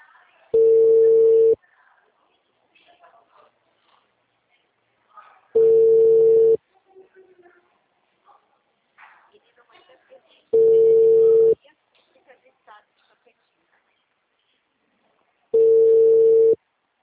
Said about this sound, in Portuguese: deixa eu só ligar para essa cliente.